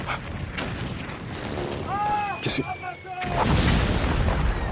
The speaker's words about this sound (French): Les Boches nous ont tendu un piège et ils ont bougé leur artillerie. Elle n'est pas à 5000 yens, elle est ici.